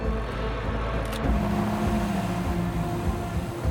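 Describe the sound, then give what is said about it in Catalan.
A Mercedes car driving away, its engine giving a steady, low rumble that stays fairly even from start to finish. “La cinta es transforma en una llanta i el vehicle s'allunya.”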